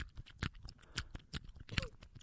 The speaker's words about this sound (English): Yeah, you are chomping on that shit.